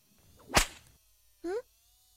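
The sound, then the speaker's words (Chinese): A single sharp whip lash cracks loudly, with a short swish trailing after it. After a pause, a brief high voiced yelp follows. “鞭子呀，狠狠地抽打，让它害怕你，这样以后才能驯服它。”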